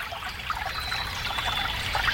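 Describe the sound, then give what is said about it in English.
A river rushing through a forest, heard as a steady hissing wash of flowing water, fairly quiet and unbroken, with no voices. “Is that a faucet running? That's not a faucet. That's a river rushing through the forest.”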